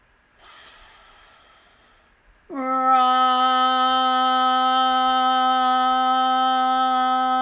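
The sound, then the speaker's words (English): A deep, breathy inhale lasts under two seconds and fades. After a short pause, a voice holds a steady, loud chanted tone as part of a breathing exercise. “We breathe in and use the tone Ram extended as long as our breath allows. So breathe in.”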